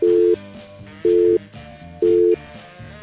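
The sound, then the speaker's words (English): A telephone busy signal sounds as three evenly spaced, loud tone bursts about a second apart, with a softer background between them. “I had to dial my own number to hear the new busy signal, which I fully expected would sound like this”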